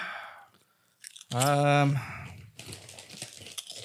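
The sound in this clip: Chewing of Snoop Dogg OG barbecue cheddar chips: a brief voiced hum, then crisp, irregular crunches as the chips are bitten and chewed.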